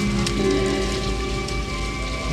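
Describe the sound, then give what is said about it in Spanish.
Rain falling in the jungle, a dense, steady patter and wash of drops that continues evenly throughout, with no voices. “Willard y Lanes caminan por la jungla bajo la lluvia.”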